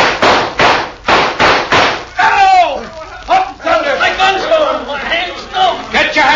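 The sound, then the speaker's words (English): Gunshots fired at bandits' guns in a Western gunfight: several sharp cracks in quick succession, then excited shouting voices mixed with a few more scattered shots. “Now shoot at their guns, yeah, along with me.”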